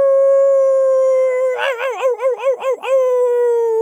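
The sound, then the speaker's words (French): A wolf scalded with boiling soup lets out a long howl of pain at night. The steady, sustained cry breaks into a trembling, wavering middle section, then settles back into a level tone. No other sounds are heard. “Le loup, ébouillanté, pousse un long hurlement de douleur qui s'élève sous la lune dans la nuit.”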